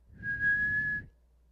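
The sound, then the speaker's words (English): A person whistles one steady, even-pitched note, imitating a human whistle heard behind them at home. The note is held for about a second at moderate loudness, then stops abruptly. “I heard a very distinct whistling, like, right behind me. And it wasn't that of, like, an animal or any artificial sound. It sounded like a human being directly behind me whistling, you know, like,”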